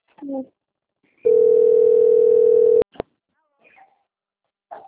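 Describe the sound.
Ringing tone of an outgoing telephone call: one steady, loud, even tone lasting about one and a half seconds, then two sharp clicks. Brief speech comes before and after.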